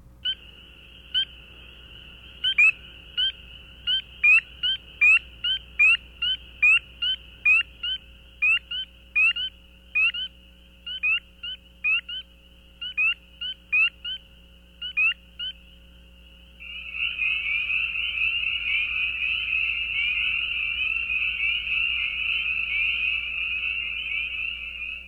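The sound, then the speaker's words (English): Spring peeper frogs calling: a long run of sharp, high, evenly spaced single peeps from individual frogs, then a dense, continuous chorus of overlapping high calls that lasts to the end. “In the following example, individual spring peepers are heard first, followed by a chorus.”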